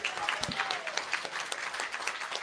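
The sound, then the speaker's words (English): Diners at an evening event give a round of applause, a faint, scattered patter of clapping hands with a little crowd murmur and some talk. “Big round of applause.”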